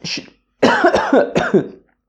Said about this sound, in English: why do I have to cough so much?